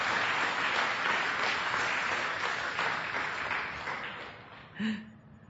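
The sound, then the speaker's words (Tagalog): A church audience applauds in dense, steady clapping that gradually thins and fades toward the end. “Palakpakan natin ng Panginoon, mga kapatid.”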